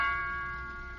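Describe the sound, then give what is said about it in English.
Doorbell chime ringing once, a bright bell-like tone struck at the start and slowly fading away, fairly faint and heard alone. “You know, from now on, every time the doorbell rings, we'll sort of expect to see him back again.”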